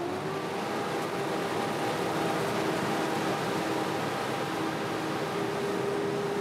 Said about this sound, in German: Karl Wiedemann soll die Maschine Probe laufen lassen. Werner Eberhardt will gucken, wie viel Öl an der Dreschtrommel austritt